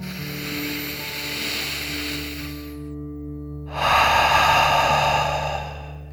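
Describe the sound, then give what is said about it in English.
A slow, deep breath in and out during a calming relaxation exercise: a long, airy inhale, a short pause, then a louder, rushing breathy exhale, all over soft sustained background music. “So let's take one final deep dragon breath in and out.”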